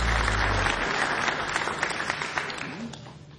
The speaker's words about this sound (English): Thank you so much. Give it up for the folks here at Mount Stage.